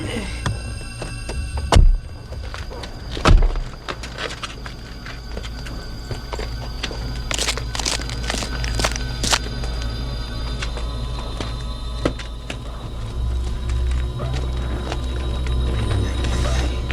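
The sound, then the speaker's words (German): A window shutter clattering somewhere in a deserted ghost town: two heavy knocks early on, then many lighter, irregular taps and rattles over a low, steady rumble. “Hört ihr das? Irgendwo klappert ein Fensterladen.”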